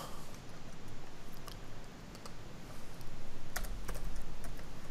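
Typing on a computer keyboard: a quick, irregular run of soft key clicks, some louder than others, with no talk.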